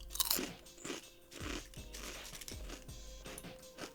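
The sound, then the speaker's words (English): Crunching and chewing sounds from someone eating marshmallows in an ASMR recording, with many soft, irregular crunches and bites heard faintly without talk. “You enjoying this crunching ASMR, guys? You like it? Yeah, well, you're eating marshmallows.”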